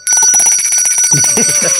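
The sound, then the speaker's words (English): A bell rung on the road near a moving car gives a bright, sustained metallic ring over many quick repeated strikes. It sounds loud and alone, without voices. “This guy's ringing a bell.”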